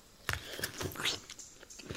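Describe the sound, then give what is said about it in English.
Biting into a plum-like fruit on the island of Tana gives a few crisp, wet crunches and chewing sounds at an uneven rhythm, fairly quiet and with no talking. “I am taking a bite of each fruit. I have become very fond of these fruits while I have been on Tana.”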